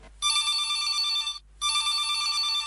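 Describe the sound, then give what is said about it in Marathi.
Electronic telephone ringing announces an incoming call on a radio phone-in programme. There are two long, bright trilling bursts with a short gap between them, and no voices. “घेऊया आजच्या कार्यक्रमातला हा पहिला call.”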